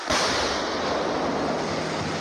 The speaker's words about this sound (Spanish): Explosiones en medio de la selva amazónica.